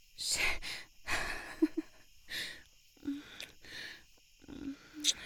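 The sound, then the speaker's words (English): Heavy, ragged breathing from a person catching their breath while lying down after exertion: a steady run of deep breath bursts, some carrying faint voiced sighs, moderately loud with no talk. “Let's just lay here for a minute and catch our breaths.”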